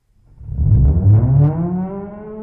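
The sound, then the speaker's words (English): Deep, moaning horn from an old ship in fog: one long, loud tone rich in harmonics that swells in, bends slightly upward, then holds steady and slowly fades. “"I'm here. I'm drifting in the fog. Don't forget about me." The old ship's moan spread through the fog.”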